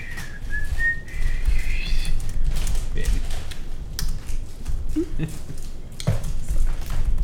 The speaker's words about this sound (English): And again, tries to whistle very poorly,